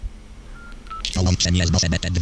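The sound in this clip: Telephone keypad tones dial out as a call connects through a Bose headset: a rapid series of many loud, short beeps after about a second of quiet, continuing to the end.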